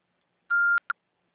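A voicemail beep on a Brazilian phone line: a clean, steady mid-high electronic tone lasting about a quarter second, then a short second blip, with silence around both.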